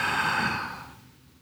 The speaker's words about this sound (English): Do that for a minute. Inhale with me,